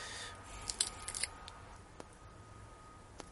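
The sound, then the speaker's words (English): Sharp snipping of a bulletproof cigar cutter taking off a cigar cap: a quick cluster of crisp metallic clicks, then two isolated light ticks, all faint over a quiet background. “So I'm going to go with the perfect cut bulletproof cutter here. Just big enough to cut the cap, and the nice thing about the bulletproof cutter is you can't cut too deep on the cap.”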